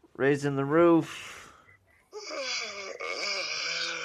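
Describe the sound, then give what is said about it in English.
A person's yawn in a studio: a wavering, voiced groan that trails into a breathy exhale, followed after a short pause by another sustained voiced sound. “Whoa. That was a yawn.”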